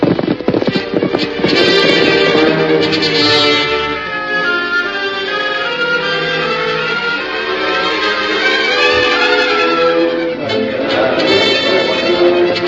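Horses set off on a ride, hooves clip-clopping in a running rhythm beneath loud orchestral music that carries throughout.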